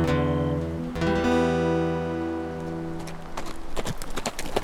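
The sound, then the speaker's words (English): Horse hooves clop at an unhurried pace as riders come slowly into a tiny town. Sustained musical tones fill the first few seconds, and then a run of many sharp, irregular hoof clops takes over toward the end. “Matt and Sam rode slowly into the tiny town”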